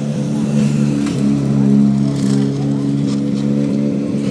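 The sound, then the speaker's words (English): Engine drone from a Ford Fiesta WRC rally car in the Cardiff Bay service park. It is a steady, low, throbbing tone that holds fairly even, with slight swells. “you can hear the sound of Ott Tanak in his Ford Fiesta coming past now.”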